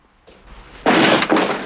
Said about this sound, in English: kicks the door open